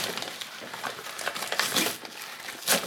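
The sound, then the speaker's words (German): Crinkling and tearing of wrapping as a carefully wrapped package is ripped open: faint, scattered papery crackles in several bursts, with a louder crinkle near the end. “ich hab das aufgerissen wie ein Westpaket. Das ist ja auch genauso eingepackt.”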